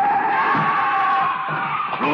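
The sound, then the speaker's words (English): Tires squeal as a car skids in the street during a chase, a loud, sustained high screech that runs the whole time with a slight wavering pitch. “He is running out into the street. The car is trying to hit him.”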